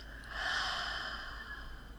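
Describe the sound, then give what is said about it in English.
A deep breath during a guided breathing exercise, meant to be drawn in through the nose and released through the mouth. It is a soft, steady, airy rush lasting the whole moment, faint and heard alone. “So we're going to take a deep breath in through our nose and out through our mouth.”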